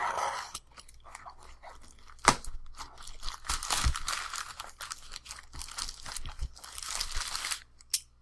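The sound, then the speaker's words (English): Plastic wrap and packing tape on a package are cut through. Irregular crinkling, crackling and tearing runs throughout, with a couple of sharp clicks. “they wrapped it in this plastic wrap and sealed it with packing tape. So I have to cut through that to get into it.”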